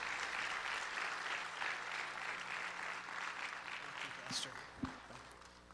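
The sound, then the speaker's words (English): A church audience applauds to welcome a visiting speaker to the morning service, a steady wash of clapping that thins toward the end, where a couple of sharp thumps stand out. “So I want you to put your hands together. Give a good corona welcome to Simon Gounder as he comes to minister this morning.”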